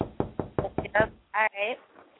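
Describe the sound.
Knocking: a rapid, even run of five sharp raps, followed by people talking briefly.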